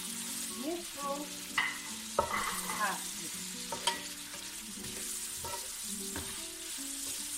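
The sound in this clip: Stirring in a hot pan as turmeric and black pepper go into frying meat and onion: a steady sizzle runs throughout, broken by a few scraping clatters of the utensil against the pan.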